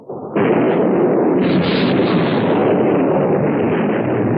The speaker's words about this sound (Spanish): Todas las torretas listas para disparar, señor. ¡Abran fuego! ¡Fuego!